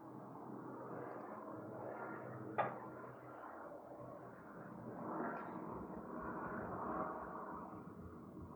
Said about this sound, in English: it's a helicopter.